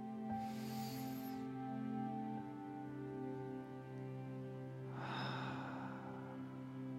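Two deep inhalations during a guided breathing exercise. Each is a soft, airy intake of breath over a steady droning tone, the second coming about four seconds after the first.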